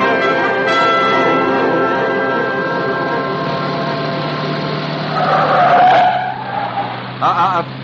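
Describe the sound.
Tires squeal as a convertible car speeds along. A loud, piercing skid rises midway over a steady tonal background, and a shorter wavering squeal follows near the end.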